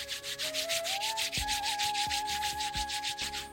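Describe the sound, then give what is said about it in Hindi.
Two hands rubbed briskly together make a rapid, steady swishing with many back-and-forth strokes, while soft flute music plays underneath. “अपने दोनों हाथों को आपस में रगड़ते हुए”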